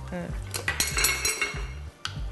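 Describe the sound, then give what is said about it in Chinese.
A utensil stirs soup in a pot as it is seasoned with salt. Several irregular metallic clinks and scrapes against the pot sit over a low steady hum. “搅拌搅拌。”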